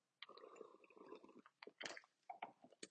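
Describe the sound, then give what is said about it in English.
Someone drinking water while parched, with soft wet mouth sounds and swallowing gulps in a quick, uneven run, faint throughout. “So give me a second so I can drink some water because I'm parched.”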